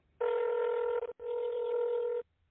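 Telephone call tones on a line where nobody answers: two long, steady, mid-pitched electronic tones separated by a brief gap, loud and alone with no voice.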